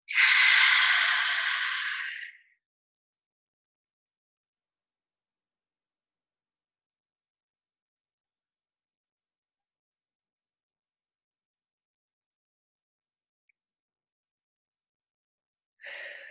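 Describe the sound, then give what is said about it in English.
One deep breath exhaled through the open mouth, a breathy sigh lasting about two seconds, then long silence and a brief faint breath at the very end. “Inhaling through the nose, filling up the belly and filling up the chest. And opening the mouth and just exhaling it all out.”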